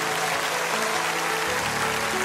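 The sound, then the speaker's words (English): A church audience at Lakewood applauds as people stand throughout the building: steady, dense clapping runs the full length, with faint sustained musical tones underneath. “Come on, Lakewood, let's give them a hand as they stand all over the building.”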